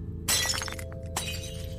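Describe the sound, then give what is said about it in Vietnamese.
A ceramic teapot of tea knocked off a table shatters with a sharp, loud crash, followed by scattered tinkling fragments and a second, smaller impact. “Ấm nước chè trên bàn bị Cương vô tình gạt tay xuống, vỡ tan tành.”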